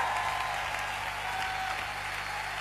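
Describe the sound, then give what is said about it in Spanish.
Steady applause from many hands, a dense continuous patter that stays loud and even throughout without pauses or voices on top. “Den ese aplauso con todas sus fuerzas a él.”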